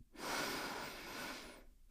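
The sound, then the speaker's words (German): A deep breath drawn in through the nose during a guided four-count breathing exercise: one long, steady, airy inhale that swells quickly and holds for over a second before stopping, with no talk over it. “jetzt atmen wir ein für 4.”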